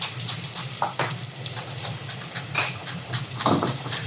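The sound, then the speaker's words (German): Onions sweat in hot fat on a stovetop while vegetables are prepared for a vegan summer bowl, giving a steady, moderately loud sizzle with a few faint crackles and pops scattered throughout. “schwitzt gerade Zwiebeln an”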